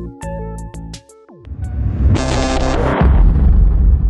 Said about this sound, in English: He tried. The atomic blast could be seen for miles.